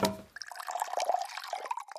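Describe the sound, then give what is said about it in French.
Water pours from a carafe into a glass in one faint, continuous trickle with light gurgling and splashing that lasts about two seconds. “Il a pris la carafe des mains de sa femme et a rempli un verre d'eau.”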